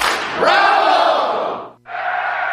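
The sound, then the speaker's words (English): Loud football stadium crowd roaring and cheering during a game in Monterrey, a dense sustained roar that breaks off briefly and then surges back. “The game started. Call your dad. I'm on it, Ma. Hola, Pa. Hello, hijita. I can't hear you. I'm at the stadium in Monterrey.”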